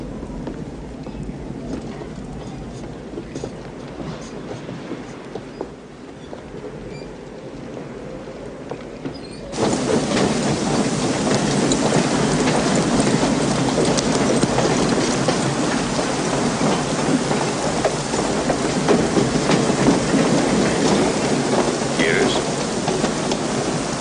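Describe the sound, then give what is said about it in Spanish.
Rain falls as a steady hiss that abruptly becomes louder and denser partway through, then holds as an even, heavy downpour to the end. “Va a llover.”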